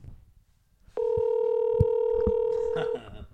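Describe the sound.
A telephone dial tone sounds as a call is being placed. It is a steady, pure electronic hum that starts abruptly, holds evenly for about two seconds with a few faint clicks over it, then cuts off.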